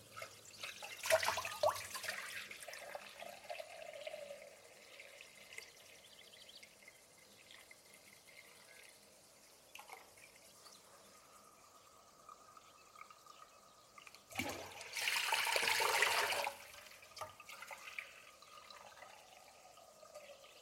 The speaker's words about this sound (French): Alors je prépare 4 litres d'eau et je remplis ma marmite de 4 litres d'eau.